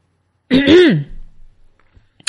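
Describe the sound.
A man clears his throat deliberately, like a teacher quieting a class. One strong, rasping voiced burst of about half a second trails into a few softer breathy rumbles, then near silence.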